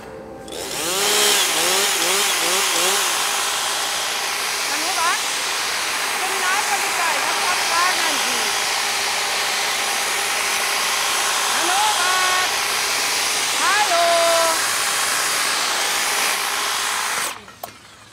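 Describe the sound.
A powered hedge trimmer cutting a hedge makes a loud, continuous buzzing motor drone that runs for about sixteen seconds before cutting off abruptly, with a voice speaking over it.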